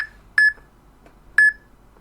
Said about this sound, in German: So, jetzt wird das Piepen schon mal ein bisschen flotter. Noch schneller.